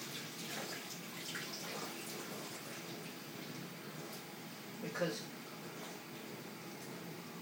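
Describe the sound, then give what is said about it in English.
Faint, steady rush of tap water running over onions and small pieces of corn during a rinse, an even wash of noise broken by one brief louder splash. “I'm going to put them in. I'm actually going to wash them first.”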